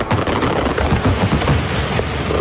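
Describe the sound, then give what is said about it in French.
Fireworks and pyrotechnic effects crackle as a dense, loud volley of many rapid bangs and pops that continues without a break from start to finish. “Feux d'artifice, effets pyrotechniques.”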